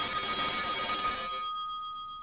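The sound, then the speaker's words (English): A telephone rings with an incoming call, a thin, narrow-band electronic trill with steady tones that cuts off about halfway through, leaving a faint lingering hum. “As I was saying, we've all had the experience of being interrupted at dinner by a phone call.”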